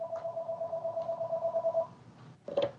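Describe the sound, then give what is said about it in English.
A telephone rings with a rapid, pulsing electronic tone that repeats steadily, stops, then sounds once more briefly. “I may have to take this phone call.”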